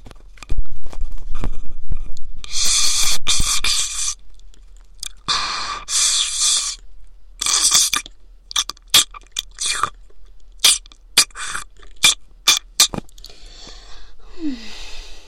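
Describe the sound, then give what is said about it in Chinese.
Wet sucking and slurping noises imitate brains being drawn out of an ear through a straw. Several long noisy pulls come first, then many short, sharp crackling clicks, with occasional quieter gaps between bursts. “从你的耳朵里吸脑浆，味道应该更好吧？就用这根吸管好了，从你的耳朵里插进去。”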